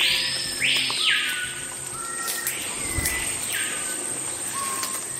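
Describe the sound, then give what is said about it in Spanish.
Amazon rainforest ambience filled with bird calls, several bright sweeping whistles rising and falling, layered over a steady high insect-like hum and a soft continuous background wash. “Así como vas a escuchar a continuación, suena la Amazonía.”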